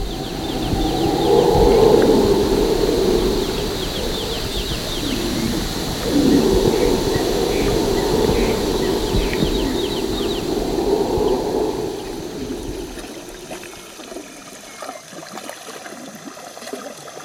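Night-time jungle ambience with dense bird and animal calls layered over flowing water, a steady, full wash of sound that thins out and grows quieter toward the end.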